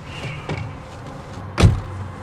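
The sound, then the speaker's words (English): A vehicle door shuts with one dull, heavy thump as someone gets out of a van on waste ground beside a parked car, heard over a low, steady background rumble with faint shuffling beforehand. “Tom pulls up in his van on a piece of waste ground near Eddie's car. He gets out and climbs in next to Eddie.”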